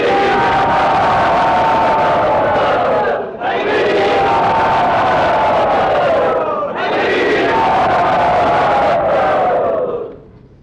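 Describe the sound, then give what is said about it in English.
A crowd at a temple roars and cheers loudly to welcome a guest. The shouting comes in three long, surging waves that each swell and briefly dip before the noise fades at the end. “Let us very loudly and enthusiastically welcome him to Sri Sri Radha Gopinath's temple.”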